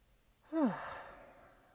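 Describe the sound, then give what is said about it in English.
A deep breath is taken and let out as one long, soft sighing exhale that fades gradually, heard alone. “Let's take a deep breath, because that was a lot.”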